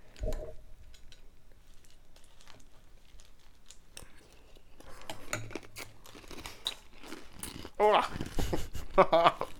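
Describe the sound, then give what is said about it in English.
Someone bites into crunchy food close to the mic, ASMR style, giving a couple of loud, crisp crunches near the end after a stretch of quieter talking and faint rustling. “Let's take a bite. Yeah, we're going to do like ASMR now. So I'm going to turn up the volume a lot.”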